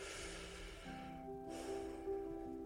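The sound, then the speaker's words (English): A deep breath taken before a children's Bible story: a long, soft rush of air, a brief pause, then a second drawn-out breath, over quiet sustained background music. “Let's get ready for our story by taking a nice deep breath to prepare ourselves.”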